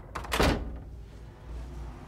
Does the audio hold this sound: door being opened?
yes